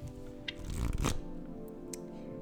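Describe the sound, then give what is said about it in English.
Tarot cards riffle and patter as they are shuffled for a reading. A dense flurry of soft, papery flicks swells to a peak midway, then settles into quieter rustling. “Today, we're going to be pulling a card to set the tone for your Thanksgiving day.”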